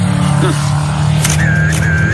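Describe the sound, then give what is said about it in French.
A car engine drones loud and steady throughout this short driving sound effect, a deep hum with no clear revving or gear changes. “allez, bouclez votre ceinture, je vous emmène en voiture.”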